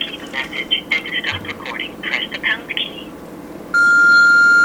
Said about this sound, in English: And the tone.